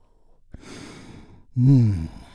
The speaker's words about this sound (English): we begin by taking a big, deep, healing breath all together. Here we go. And release.